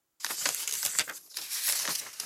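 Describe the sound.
Crisp rustling of newspaper pages as someone leafs through articles, a continuous dry crinkling with one brief lull, heard alone.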